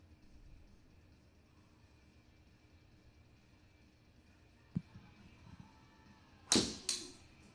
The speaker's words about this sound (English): Broken shaft. Broken shaft. He's a veteran shaft breaker, too.